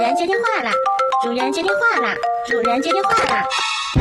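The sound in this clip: A phone ringtone plays a chiming, melodic tune of steady electronic tones, with voices heard over it.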